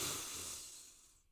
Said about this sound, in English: So let's start with our breath. We're going to breathe in together three times.